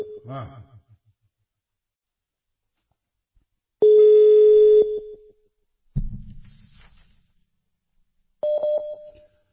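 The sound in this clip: Telephone line tones sound while a call is placed to a caller, with two short, steady, mid-pitched tone bursts separated by silence and a brief voice.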